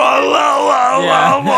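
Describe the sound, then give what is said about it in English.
A man vocally imitates another man screaming as he melts: a loud, strained, groaning yell with wavering pitch and no intelligible words, lasting under two seconds. “What is he screaming when he's melting at the end? He's like,”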